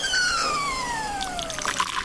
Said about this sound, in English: Just pour it into the cup there.